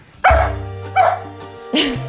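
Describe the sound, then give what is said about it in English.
A dog barking: three loud, sharp barks, each followed by a short yelping tail, spaced under a second apart, with a steady low hum underneath. “So that's my dog”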